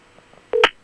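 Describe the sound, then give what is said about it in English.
A telephone keypad tone sounds as a number is redialed after a wrong call: one short, bright electronic beep that cuts off quickly, preceded by a few faint soft clicks. “So we are going to dial them again.”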